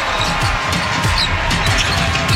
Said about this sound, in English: Here come the Spurs with Gillespie dribbling on the logo center court.